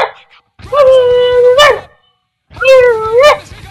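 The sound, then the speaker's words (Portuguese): A dog howls and whimpers in two drawn-out whining cries separated by a short silence. Each cry holds a steady pitch, then lifts sharply at its end, over a faint low pulsing beneath. “Isso é um cachorro.”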